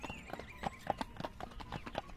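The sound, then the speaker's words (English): Horse hooves clip-clop at a steady trot as a merry gray pony goes along a smooth pike road; many light, evenly spaced hoofbeats keep a quick, regular rhythm at a fairly faint level. “hoofs played the jolliest tune on the smooth pike road”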